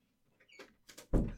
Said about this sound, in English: Can you shut the door? I can.